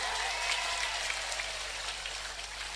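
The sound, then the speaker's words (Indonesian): A crowd applauds during a political speech, making a dense, crackling wash of clapping that stays faint and steady throughout. “Ini lho tepuk tangannya sampai kaya ngono kuwi lho.”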